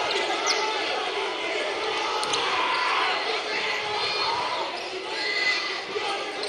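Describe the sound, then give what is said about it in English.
A basketball is dribbled up the court during a Piedmont basketball game. Repeated dull bounces sit under steady play-by-play talk and background noise throughout. “They'll bring it up. Piedmont. Hall with the dribble.”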